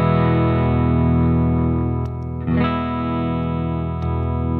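Electric guitar through a subtle drive pedal set at unity, adding a slightly hairy edge without boosting volume; a sustained, lightly distorted chord rings steadily, with a few fresh pick attacks renewing it.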